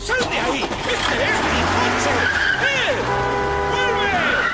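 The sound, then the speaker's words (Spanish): A car drives away along a street with a loud, steady engine roar. High tyre screeches rise and fall throughout. “Se acerca a un hombre que está a punto de subirse a un coche. Y se sienta al volante.”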